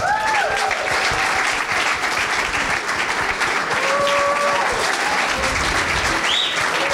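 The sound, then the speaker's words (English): Studio audience applause welcoming a bodybuilder guest onto a talk show: dense, continuous clapping with a few cheers mixed in, loud and steady throughout. “Give him a hand.”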